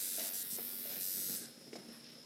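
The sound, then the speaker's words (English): A tattoo machine buzzes during tattooing, a steady high-pitched electric whine that runs strongly for over a second, then drops lower and quieter with a few faint clicks. “Crack on. Crack on doing the rest of the tattoo.”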